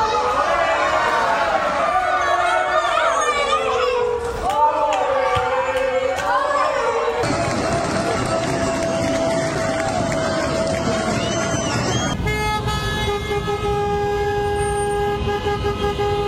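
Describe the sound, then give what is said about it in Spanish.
Car horns honking in street celebrations across the Murcia region: loud shouting and chanting crowds give way to sustained, overlapping horn blasts that continue to the end. “Los pelos de punta seguramente lo hayan escuchado ya, pero merece la pena volver a escucharlo porque así sonó en las calles de la región de Murcia.”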